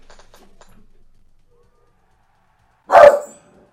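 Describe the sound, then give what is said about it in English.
A single sharp dog bark bursts out loud and alone after a long quiet stretch, short and harsh, fading quickly. “There's nothing there. Stop barking.”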